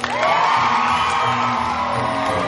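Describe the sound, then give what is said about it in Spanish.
Gryffindor students in the Hogwarts great hall cheer and whoop as a newly sorted classmate joins their house table. The crowd noise is loud and steady for the whole stretch, with shouts rising above it. “Hermión se dirige hacia la mesa de la casa Gryffindor. Sus compañeros la reciben con aplausos.”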